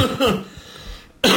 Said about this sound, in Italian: Scusate la tosse, ma la moto in questo periodo di freschetto non aiuta.